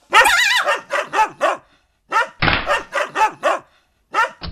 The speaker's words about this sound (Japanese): 声をかけた時にブルドッグだか土佐犬だか、耳が小さくほっぺたの広がった犬が目を覚まし